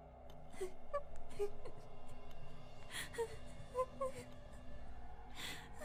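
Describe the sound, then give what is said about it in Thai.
A woman sobbing painfully on a bridge, heard as faint, wavering whimpers and moans broken by catching, gasping breaths throughout. “เสียงร้องไห้สะอึกสะอื้นอย่างเจ็บปวดรวดร้าว”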